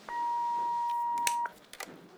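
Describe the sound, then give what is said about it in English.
An answering machine gives a single long, steady, mid-pitched beep lasting over a second, followed by a few soft clicks and handling noises. “Leave a message. Wait for the beep.”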